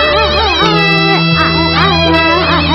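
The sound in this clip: A performer in a traditional Chinese opera piece imitates crying with the voice. The wavering, sobbing wails rise and fall over sustained instrumental accompaniment.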